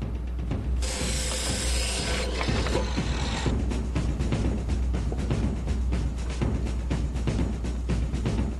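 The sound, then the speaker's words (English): A ratchet tightens bolts to fix a board on as a rudder, making many rapid, regular clicks. The clicking comes after an opening stretch of brighter, rougher mechanical noise, with no talking. “we'll just bolt a board between the two. Right. And that's all you need is a board. A bit of board will be a rudder. No sooner said than done.”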